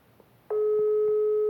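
An outgoing phone call's line tone: a steady electronic dual tone switches on abruptly after half a second of near silence and holds unbroken and loud to the end.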